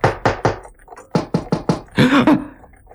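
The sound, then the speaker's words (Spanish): Knocking on a shop door with a walking cane on a foggy street: seven sharp raps in two groups, three then four, followed by a brief voiced call. “De repente, en la calle, un caballero muy alegre, al menos en apariencia, empezó a golpear con su bastón la puerta de la tienda.”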